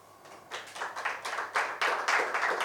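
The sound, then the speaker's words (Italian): Audience applause for a team called Teatro La Scala during a live storytelling contest. The clapping starts faint, then swells within the first second into a steady, full round of many hands. “Un applauso per il Teatro La Scala.”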